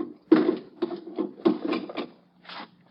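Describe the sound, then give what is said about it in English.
Scraping rubs of bolts being slid open on a wooden crate packed with straw and explosives, several short woody grinding strokes in an uneven rhythm, fairly loud and alone. “Just let me slip these bolts.”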